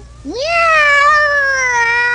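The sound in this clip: A contestant's voice imitates a cat's meow during an imitation contest: one long, loud meow that rises at the start, then holds a steady, slightly falling tone, heard alone.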